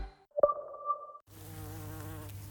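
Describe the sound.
A short buzzing of bees, a droning tone lasting under a second, followed by music.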